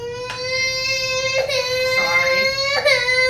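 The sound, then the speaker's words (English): A young girl sobbing with a sustained, high, wavering wail. It is loud throughout and broken by a few sharper catches, around three, as she cries. “She's sobbing now.”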